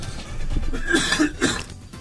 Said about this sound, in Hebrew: השיעול זה היה נראה כמו אפצ'י כזה ככה.